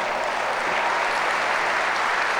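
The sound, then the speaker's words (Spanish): Applause from a church audience during a praise service: continuous, dense clapping from many hands, loud and even from start to finish, with no voices rising above it. “Dele el aplauso al Señor.”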